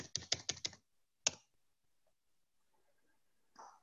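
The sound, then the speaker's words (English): Computer keyboard typing: a quick run of about four or five crisp keystrokes, then one more a moment later. Near silence follows, with a faint brief sound at the end. “Let's just type chopped.”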